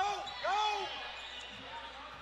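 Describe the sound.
Basketball dribbled on a court during a game in the final seconds of a period, faint rhythmic bounces beneath continuous commentary.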